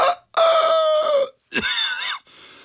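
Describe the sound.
A human voice imitates a chicken, a trick practised since primary school and made by drawing in air while voicing: a short squawk, a long crowing call, then another wavering cry, ending in a faint tail.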